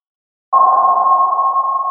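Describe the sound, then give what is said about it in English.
A single sonar ping sounds as one loud, pure tone after half a second of silence and holds steady, without fading, to the end. “Sonar is a technology that uses sound to sense where objects are located.”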